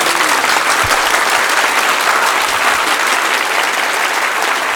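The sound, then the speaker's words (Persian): Applause from an audience at a Persian devotional chanting gathering: dense, loud, continuous clapping that holds steady for the whole stretch, with no voices rising above it. “یه کف خوشگل بزن.”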